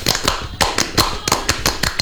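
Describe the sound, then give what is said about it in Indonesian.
A group performs Tepuk Pramuka, the Indonesian Scout clap, with many sharp, loud handclaps in a quick rhythmic pattern broken by a brief pause. “Tepuk Pramuka.”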